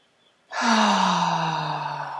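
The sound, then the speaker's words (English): A long, deep breath with a voiced, sighing tone is taken during a guided relaxation exercise. It is loud and sustained for nearly two seconds after a quiet start, and its pitch falls slightly. “So I want you to just take a big deep breath right now.”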